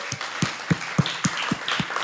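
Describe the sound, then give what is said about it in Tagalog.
A church audience applauding, clapping together in a steady, even rhythm of roughly three to four beats per second over a bed of scattered handclaps. “Pwede bang palakpakan natin si Jesus?”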